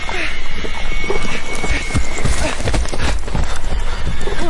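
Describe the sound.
A horse stuck in a trap whinnies amid clattering hooves, loud and continuous over a dense, busy background of noise.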